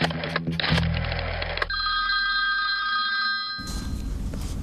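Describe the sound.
A telephone bell rings for an emergency call. Loud, rapid ringing bursts lead into sustained ringing tones, with no talk over it.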